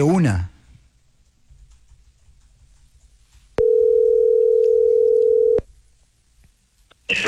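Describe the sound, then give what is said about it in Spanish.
A steady telephone line tone sounds on a call placed to a listener, holding level for about two seconds before cutting off. A voice is heard briefly before it and again at the end. “marquemos otro número”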